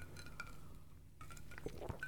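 Faint glass clinks as whiskey old fashioned cocktails are raised in a toast: a few light, ringing taps separated by soft handling noise, with no talk.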